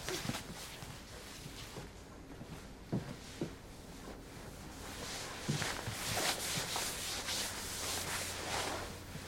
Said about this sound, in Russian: достает моющие средства из ящика под раковиной. Отмывает пол.